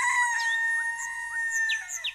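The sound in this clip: A rooster crows in one long, loud call with a steady harmonic tone held for about two seconds.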